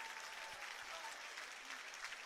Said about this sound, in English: Big round of applause for each of these Marathon players coming off.